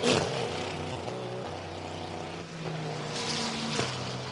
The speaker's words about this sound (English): It's a tidy pit stop, though, as off and away the 40 go.